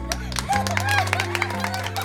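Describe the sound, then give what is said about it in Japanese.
Applause from the gallery in a courtroom scene of an audio drama, a patter of clapping over a low, sustained musical tone. “法廷での拍手は禁じられているのに。”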